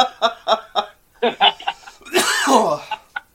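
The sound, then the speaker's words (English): Coughing mixed with laughter after choking on coffee: a run of short, sharp bursts, then a longer strained hacking stretch, and a few final isolated coughs. “Oh my God, I choked on my coffee while you were telling me.”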